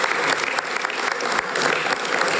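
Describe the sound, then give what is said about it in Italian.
Applause from an audience at a formal gathering with ambassadors present, honouring a parliamentary colleague: thick, continuous clapping from many people, steady in level throughout with only slight swells. “Facciamogli un applauso perché è veramente un amico dell'Italia.”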